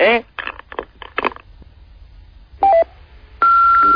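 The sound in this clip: Telephone answering machine tones follow the end of a voicemail greeting: two short beeps come first, then one long, steady electronic beep. A voice speaks before the tones.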